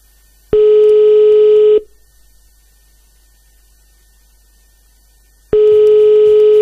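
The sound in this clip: Telephone line tone while a radio morning show rings its listener of the day: a steady, loud, pure tone lasting over a second, a long silence, then the same tone again.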